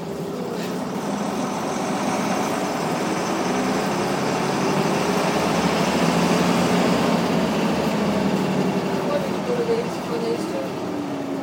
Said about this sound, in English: He's building up his air pressure now, I think. Yeah, he's a good rev when you start it to get the air off. Beautiful rev.